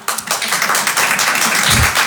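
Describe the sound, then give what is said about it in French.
Sparse clapping from a tiny stand-up comedy audience of only a few people: thin, irregular claps rather than a full ovation, with uneven spacing throughout. “Qui me connaît par applaudissement?”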